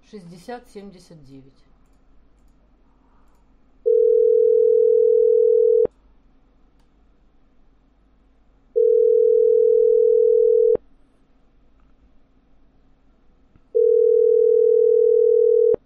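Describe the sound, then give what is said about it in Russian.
Telephone tones sound while a number is dialled on a phone call: three long, steady mid-pitched beeps of about two seconds each, evenly spaced by short gaps. A brief voice is heard at the start over a low hum. “Сейчас набираю из Краснодара 928.”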